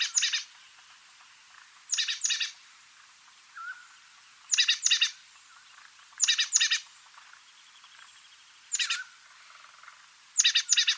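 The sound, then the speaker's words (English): Oak titmouse calls from the Sierra Nevada of California: repeated short, high, raspy chattering bursts every two seconds or so, with quiet gaps between them. “here we have the calls of an oak titmouse. It was recorded in the Sierra Nevada of California. Just for fun, see if you can also hear the mountain quail calling in the distance.”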